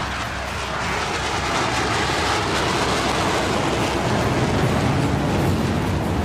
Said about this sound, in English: And a B-2 stealth bomber is another.